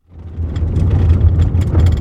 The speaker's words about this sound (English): is driving up a rugged gravel road along Pistol Creek on the Flathead Indian Reservation